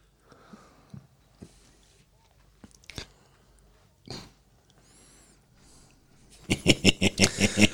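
Someone bites and chews a hot dog with everything on it: a few scattered moist clicks, then a loud, quick, rhythmic run of crunchy chewing at the end.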